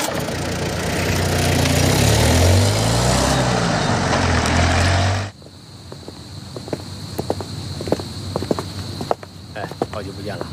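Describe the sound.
A car's low, heavy engine rumble holds steady for about five seconds as it drives off, then cuts away abruptly, leaving a quiet outdoor background with faint insect chirping.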